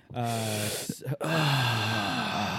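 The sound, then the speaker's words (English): Heavy, voiced breathing into a microphone: two long moaning sighs broken by a short gap, loud and drawn out, with no words. “When you breathe like that, I think of old, like, 80s, early 90s R&B.”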